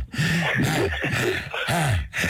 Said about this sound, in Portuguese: Olha ele a respirar, a andar.